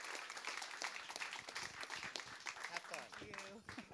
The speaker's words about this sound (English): Put your hands together. Help me welcome Ms. Lisa Sharon Harper. Come on up.